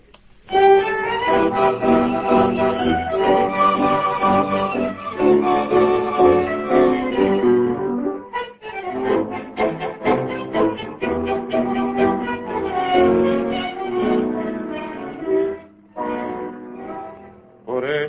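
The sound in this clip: A 1930 tango recording made in Buenos Aires, an orchestra with a sung melody, playing full and continuous with a few short pauses between phrases.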